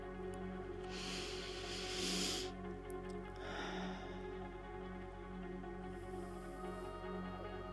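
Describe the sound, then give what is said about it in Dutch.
Faint, slow, deep breaths in and out during a guided relaxation exercise. A few long airy breaths rise and fade over a steady low hum, with no talking. “Laten we met elkaar even in- en uitademen een paar keer diep. Gewoon om even los te laten, om even te zijn.”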